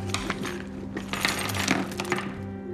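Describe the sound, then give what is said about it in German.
Contents of a handbag poured out onto a dining table, giving a continuous clatter of small objects with jingly clinks and knocks over a steady low hum. “Max schüttet den Inhalt von Anaras Tasche darauf aus.”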